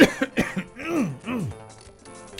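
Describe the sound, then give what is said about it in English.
Someone clearing their throat with a few rough, voiced grunts that rise and fall in pitch, heard alone without speech and fading off at the end. “I might yawn every now and then too. Or clear my throat.”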